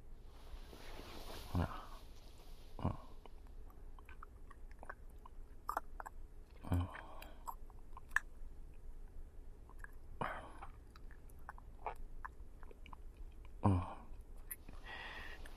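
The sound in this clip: Someone quietly chews sweet food. Soft, moist bites and crunches come in a few scattered bursts over a hushed, near-silent background.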